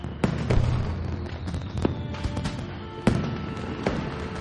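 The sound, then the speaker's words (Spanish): Fireworks burst in a prison silo scene: several sharp bangs and crackling pops, some louder than others, rise out of a steady low rumbling background with no voices. “Mujica contempla fuegos artificiales desde una ventana”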